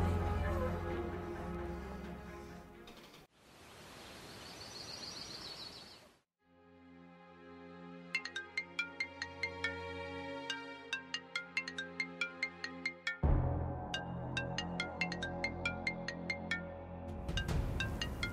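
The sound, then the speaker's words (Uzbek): A mobile phone ringtone rings as a bright, melodic series of repeated beeping tones in a steady pattern, with other noisy sounds before and after it. “boyadan beri jingillaydi telefoningiz.”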